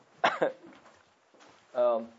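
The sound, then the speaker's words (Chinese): Dry coughing from someone with a persistent cough: two sharp bursts in quick succession, then a short voiced sound a moment later. “还是一直在咳嗽啊。那这个咳嗽叫干咳啊”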